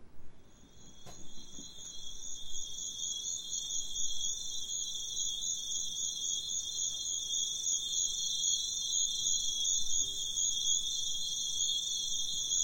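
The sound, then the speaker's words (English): Sunset atmosphere in the Congo, dominated by a dense, steady, high-pitched trilling chorus of crickets and other insects that builds over the first few seconds and then holds at an even, loud level. “So this is an atmosphere recording in the Congo at sunset, but it's loud, but it has a small dynamic range.”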